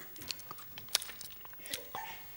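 Someone bites into a small piece of lettuce, giving faint, crisp crunches and a few sharp snapping bites scattered across two and a half seconds.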